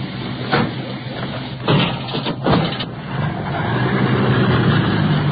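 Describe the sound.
A motor vehicle engine drones as it carries an injured man off to the hospital. A few louder thumps come first, then a steady, sustained hum takes over.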